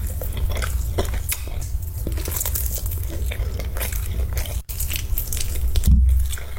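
Close chewing of maggots and sausage in an eating video: continuous dense crunching, biting and wet mastication with sharp clicky bursts, steady and fairly loud throughout, with no talking.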